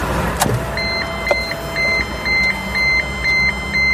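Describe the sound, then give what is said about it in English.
Car warning chime after the ignition is switched on: a series of short, high electronic beeps repeating at an even pace, preceded by a few clicks, over a low steady engine-like rumble. “he switches on the car ignition, and there's that annoying beep that he doesn't understand.”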